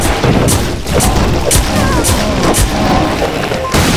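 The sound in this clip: Rocket launcher fires in a video game, producing loud, dense blasts and booms. Sharp bursts come in rapid succession over a continuous roar of gunfire-like noise.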